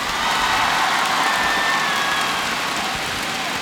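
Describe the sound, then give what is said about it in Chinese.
Audience applause at a pop concert: a dense, continuous hiss of many hands clapping, loud and steady from start to finish. “俾大力嘅掌声”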